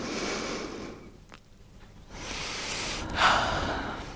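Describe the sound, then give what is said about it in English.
Deep breaths taken to relax: two long, soft rushes of air, each breath drawn in and let out slowly, with a brief quiet pause between them and no talking. “Just closing your eyes and maybe take a couple of deep breaths to relax a bit.”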